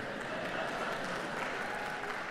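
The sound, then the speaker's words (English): An audience applauds in a dense, steady wash of many hands clapping. The applause is faint and holds an even level from start to finish. “they're applauding that. Can you believe it?”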